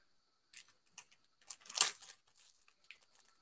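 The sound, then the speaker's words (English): Crinkly wrapping being pulled off a gift bag of Haribo Star Mix sweets: a few short, quiet rustles, then a louder tearing crinkle in the middle, fading to soft scattered rustles. “Why don't you unwrap it? Because I think a gift is really enjoyed if you can see what's inside there and see whether you like it. How about that? So would you like to unwrap it for us?”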